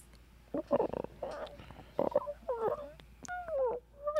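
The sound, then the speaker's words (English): A person imitates a cat's purr, making rough, rhythmic rattling pulses and then higher, wavering voiced tones. The sounds are fairly quiet and come alone, without talk. “A cat's purr.”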